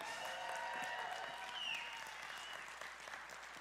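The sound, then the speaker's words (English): Audience applause for a birthday at a morning gathering: steady, dense clapping from many hands that holds at an even level throughout, with no break. “let's give it up for Ron Sauer and his birthday today.”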